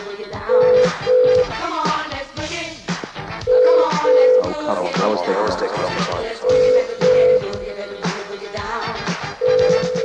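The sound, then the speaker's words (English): Telephone keypad beeps dial the operator, steady, identical tones in short pairs that recur at regular intervals over busy, loud music with voices. “Right, what we're going to do now is we're going to phone up the operator.”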